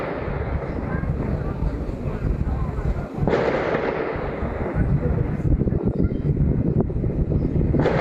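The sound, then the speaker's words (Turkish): Gunfire aimed at police in a residential neighbourhood, dense crackling pops and bangs running through the whole stretch with no clear gaps, steady and moderately loud. “Silah sesleri mahallede büyük korku ve paniğe neden oldu.”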